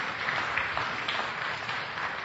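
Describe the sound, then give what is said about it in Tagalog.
An audience claps for the Lord, producing a dense, steady wash of applause that stays at an even level throughout. “Palakpakan natin ang Panginoon, mga kapatid.”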